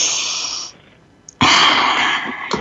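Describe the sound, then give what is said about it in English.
Slow, deep breaths during a guided breathing exercise: an airy breath sound, a short near-silent pause, then a second, louder and rougher breath that runs to the end. “Let's breathe that in.”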